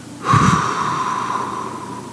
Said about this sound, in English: Breathe in through your nose. Hold it. Slowly exhale through your mouth.